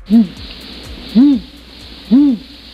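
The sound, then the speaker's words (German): Eagle owl hooting as a sound effect: three loud, low hoots evenly spaced about a second apart, each a short, rounded call that rises slightly and falls, with faint hiss between them. “Sollte ein Uhu sein, aber ich glaube, das ist ein Uhu kurz vorm Niesen.”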